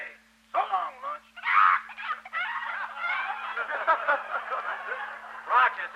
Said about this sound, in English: what are you doing with that chicken? I was just searching it to see if it had any towels. Throw that bird over the fence.